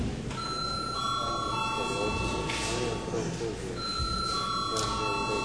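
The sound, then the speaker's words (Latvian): An electric bell rings during a parliament session, a steady, continuous metallic tone running through the whole stretch over a low murmur of background voices. “Bet tagad lūdzu zvanu.”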